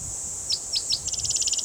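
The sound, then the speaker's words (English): Cicadas buzzing as a faint, steady high-pitched drone in the background, while a bird chirps three separate times and then breaks into a quick run of rapid chirps over it. “A lot of cicadas in the background.”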